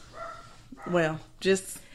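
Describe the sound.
A dog barks twice in sharp, high, yelping bursts, fairly faint, over a low background murmur.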